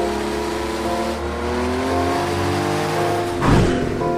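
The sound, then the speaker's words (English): A Porsche 959 Sport Prototype sports car engine revs with a steady, throaty harmonic drone and shifting tone, then swells into a louder, rougher burst near the end. “It's thrilling. It's unique. It's the ultimate Porsche in every way.”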